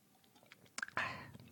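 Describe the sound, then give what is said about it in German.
Someone takes a drink with quiet mouth sounds: a few faint clicks, then a short, soft gulp-like rush that fades away. “Muss was trinken, einen Moment.”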